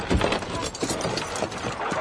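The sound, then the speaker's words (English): Hooves clip-clop as a horse-drawn wagon is driven off, with a rapid run of uneven knocks and a rattling, creaking mechanical clatter throughout. “Doc took the reins and drove the wag into the ville.”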